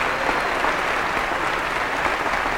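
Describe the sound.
Warm applause welcomes a speaker in Connecticut, a dense, continuous patter of many hands clapping at an even, loud level.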